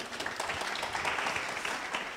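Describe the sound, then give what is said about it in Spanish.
Applause from an audience at a talk, a thick, continuous wash of many hands clapping at a steady, fairly loud level, with no speech breaking through. “Un aplauso para mi modelo.”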